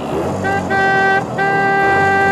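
Honking horn of an old car starting and driving off: two long, steady, tonal blasts with a brief break between them, over a low engine rumble.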